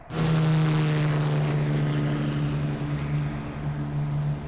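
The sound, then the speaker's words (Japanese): A construction helicopter flying overhead: a loud, continuous engine drone with a steady low tonal hum that dips slightly near the end, with no voices. “まだ結構飛ぶな、工事のヘリ。”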